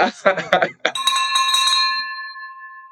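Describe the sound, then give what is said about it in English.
A silver bell is struck once after brief speech, giving a bright, sustained ringing tone that fades away slowly. “the great thing about this silver bell is it has unlimited amount of rings that I can do here”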